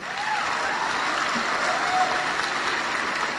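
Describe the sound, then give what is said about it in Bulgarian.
The 2022 medical graduates of Medical University Sofia applaud at their graduation ceremony. The dense, steady clapping holds at an even level from start to finish. “Аплодирайте се!”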